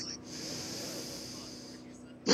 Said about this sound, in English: Take another breath.